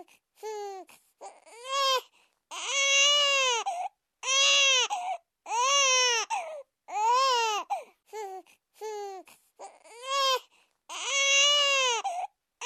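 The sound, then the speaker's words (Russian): A newborn baby, just delivered, cries loudly in many repeated high wailing bursts separated by short breaths, each cry strongly tonal and strained. “И вдруг неожиданно громкий детский плач заполнил минутную тишину, что образовалась после ее крика.”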